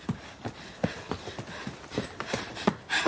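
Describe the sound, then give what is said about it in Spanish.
Running footsteps of a person hurrying up a stepped street, a steady series of hard, quick footfalls in a brisk, slightly uneven rhythm over a low background hiss. “Rabia sube corriendo una calle escalonada. Corre por el bosque.”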